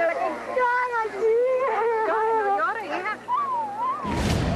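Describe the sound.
A person sobs and wails among arriving Cuban families, with a drawn-out, wavering high-pitched cry that rises and falls in trembling waves, followed by a short burst of noise at the end.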